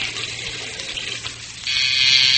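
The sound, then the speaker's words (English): Water runs from a tap in a steady, hissing rush, growing noticeably louder and fuller partway through, with a low hum underneath and no voices. “I've got to go and turn the water off.”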